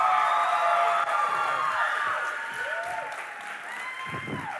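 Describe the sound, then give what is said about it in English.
An audience gives a standing ovation welcome, with dense steady clapping, cheers and a few whoops that ease off slightly toward the end. “give a one more time standing ovation welcome from Miss Becky Johnson. Let's go, everybody.”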